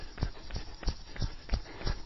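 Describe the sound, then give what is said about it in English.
Quick footfalls of someone doing high knees, landing on the tips of the toes and balls of the feet; six light, evenly spaced thuds fall in a brisk, steady rhythm without talk. “We're going to go straight into high knees today. High knees, thighs up. Knees up, thighs parallel to the ground, tips of the toes, balls of the feet.”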